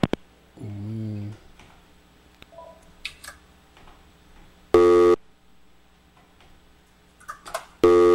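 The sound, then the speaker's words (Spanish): Telephone tones on a radio station's call-in line after an incoming call cuts off. A low warbling tone comes first, then two loud, short tone bursts a few seconds apart, with faint clicks and a low hum between them. “por ahí se estaba entrando otra llamadita, se cortó la llamada”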